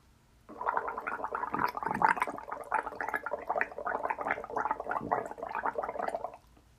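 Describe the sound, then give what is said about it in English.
Gargling water in the throat: a steady, loud bubbling rattle that runs for about six seconds with no speech. “So, the first thing I'm going to do is do a normal gargle and then gargle with sound.”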